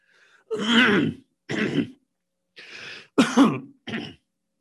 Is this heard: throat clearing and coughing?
yes